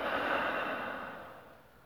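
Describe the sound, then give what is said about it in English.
One deep breath out during a guided breathing exercise, a soft airy rush that starts full and fades steadily over about two seconds, alone without talk. “all together we can take three deep breaths in and out, deeply in, and letting go”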